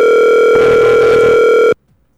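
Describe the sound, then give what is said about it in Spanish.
A telephone line tone sounds as a call is placed: one loud, continuous, steady tone with a slight change in texture partway through, then it cuts off abruptly into silence. “Díganle a mamá Lala que le estoy llamando al aire que coja el teléfono”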